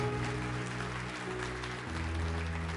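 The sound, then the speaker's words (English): Applause from a church audience: a steady, dense clatter of clapping that holds at an even level for the whole stretch. “Let's give them a hand, yeah.”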